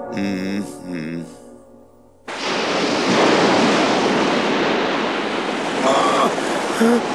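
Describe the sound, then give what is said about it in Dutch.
Sea waves in an animated story grow higher: a short voice gives way to a sudden, loud, steady roar of surf that holds to the end. “De golven worden alsmaar hoger.”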